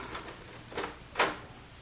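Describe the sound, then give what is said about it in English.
A few soft, faint clicking rattles of a door lock being turned, growing louder with the last one, over quiet background hiss. “This lock doesn't want to work. Well, try turning it the other way.”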